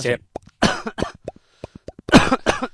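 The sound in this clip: Coughing bursts break through lively talk between two people, a few harsh, noisy coughs standing out loud against the voices.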